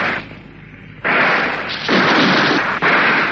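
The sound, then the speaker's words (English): Gunfire during a fight with an armored attacker coming down steps: a few loud, sudden blasts, each trailing off in a long rumbling decay. “I'll have a shot at him.”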